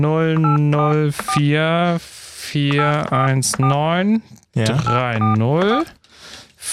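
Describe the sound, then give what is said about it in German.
Telephone keypad tones as an international number to the UK is dialed, a string of brief beeps mixed in with loud, sustained tonal sound and sharp clicks. “Da habe ich dreimal gewählt. Ich drücke nochmal zurück.”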